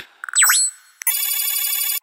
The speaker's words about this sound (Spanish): Llamada entrante.